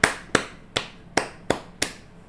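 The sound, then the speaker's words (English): Audience clapping on cue, six sharp, separate claps in a steady, even rhythm, each one cracking out and dying away quickly. “Everyone clap. Everyone clap.”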